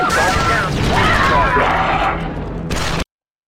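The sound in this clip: Blaster rifle fire rings out from a video game as a squad concentrates its fire on armored battle droids. Dense, crackling bursts overlap with other game noise, then cut off abruptly.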